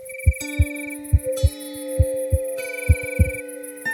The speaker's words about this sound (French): Alors, le petit tambour ferme les yeux et entend battre son cœur.